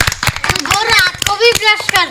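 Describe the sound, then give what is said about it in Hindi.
Children clapping loudly in quick, uneven bursts of sharp hand claps, with child voices speaking over the clapping throughout. “भाई वाह, बजाओ जोरदार ताली।”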